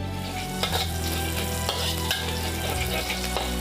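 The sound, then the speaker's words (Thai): Garlic frying in oil gives a steady, loud sizzle and crackle, with occasional sharp clicks as it is stirred. “เจียวกระเทียมกับน้ำมันครับ”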